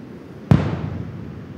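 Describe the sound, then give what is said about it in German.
A washed-up sea mine with several fuses is blown up on the beach where it was found: a single sharp, loud detonation strikes suddenly, then a rumbling low tail decays over about a second, with no voices. “Deswegen muss der Kampfmittelbeseitigungsdienst sie direkt an der Fundstelle sprengen.”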